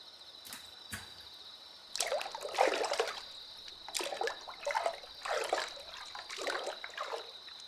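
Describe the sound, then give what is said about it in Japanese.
Water trickling and splashing softly as someone gets into a hot bath: a few light spatters at first, then repeated gentle bursts of sloshing water over a faint, steady background hum. “私の手をゆっくり離して、お湯にお浸かりください。”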